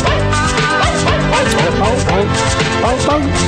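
Music played entirely with dog barks: a loud, continuous song where short, bark-like yelps form the melody over a steady backing, with no talking.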